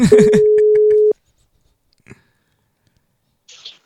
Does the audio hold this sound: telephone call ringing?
yes

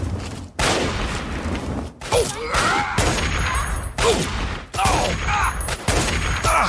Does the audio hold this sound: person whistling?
no

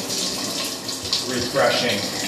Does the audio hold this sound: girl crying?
no

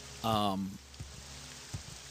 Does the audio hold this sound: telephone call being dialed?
no

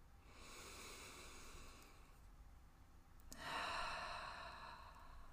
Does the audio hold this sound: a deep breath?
yes

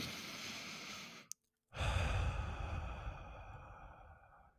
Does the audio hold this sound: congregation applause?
no

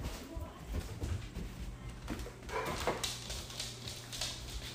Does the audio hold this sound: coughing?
no

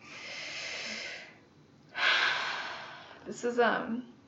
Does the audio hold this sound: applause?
no

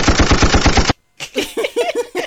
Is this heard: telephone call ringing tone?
no

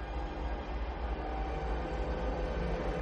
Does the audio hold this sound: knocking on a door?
no

